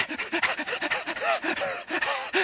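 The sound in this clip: A human voice imitates an excited dog panting at the door: quick, breathy, rhythmic pants repeated many times in a steady even pulse, moderately loud and with no words.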